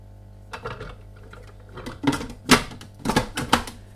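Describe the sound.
Knife cutting a small peeled, topped-and-tailed onion into quarters: several sharp clacks and thuds, sparse at first and then coming closer together and louder toward the end, with no talking.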